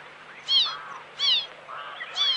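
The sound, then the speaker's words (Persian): A pet bird gives three loud, high chirps with quick downward sweeps. Softer, lower twittering fills the gaps between them. “چی میگی هی جیک جیک میکنی؟ اینقدر جیک جیک نکن دیگه، آروم بگیر.”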